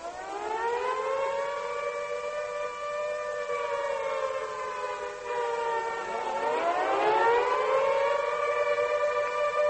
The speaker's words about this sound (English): This is the sound of war. It is an air raid signal.